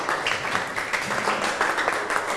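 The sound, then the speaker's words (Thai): Classroom applause as students clap for a classmate: a dense, even patter of many hands that holds steady from start to finish with no voices over it. “ปรบมือให้เพื่อนนะครับ”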